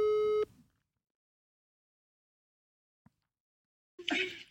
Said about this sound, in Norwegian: Jeg har ikke fått noen respons ennå, så nå skal jeg ringe han.